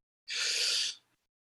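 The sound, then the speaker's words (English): A single deep breath drawn in through the mouth during a guided breathing exercise: a loud, steady, airy rush lasting under a second that cuts off abruptly, with no voices. “And we're going to do 10 deep breaths in through the mouth.”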